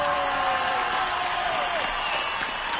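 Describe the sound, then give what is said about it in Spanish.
Audience applause at a live show, a dense, continuous wash of clapping that holds steady for the whole stretch. “El mejor aplauso para Guillermo Ochoa”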